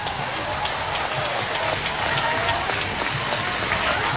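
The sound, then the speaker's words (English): Baseball fans in an uproar in a stadium: a dense, continuous wash of crowd noise, loud and steady from start to finish. “Fans are an uproar.”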